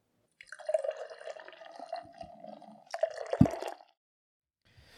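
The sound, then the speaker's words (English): Beer being poured, a soft gurgling, splashing stream of liquid lasting about three seconds, then stopping. “So sit down, crack a beer, and welcome a new perspective.”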